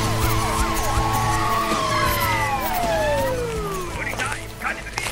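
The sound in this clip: A police car siren wails in overlapping, falling sweeps of pitch at a steady, moderate loudness, with rumbling noise and voices underneath.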